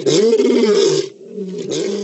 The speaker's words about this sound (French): il rencontra un lion tout aussi affamé que lui. Ils se préparèrent à combattre.